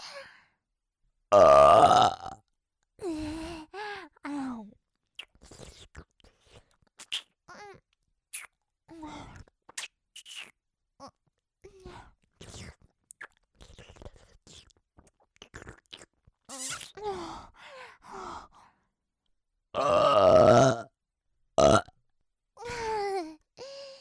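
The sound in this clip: A person burps over and over, loud long and short belches separated by silences, with soft babbling vocal sounds between some of them.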